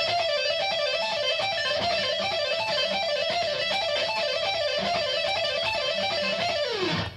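Guitar plays a fast repeating pull-off lick on the B and high E strings, with the E-string note moving among F, G and A. The notes flow in an even stream for about seven seconds, ending in a quick downward slide.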